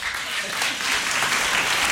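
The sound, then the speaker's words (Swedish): Audience applause, dense and steady clapping that holds at an even, fairly loud level throughout the short stretch, heard on its own without voices. “Ja, nu fick hon en applåd där.”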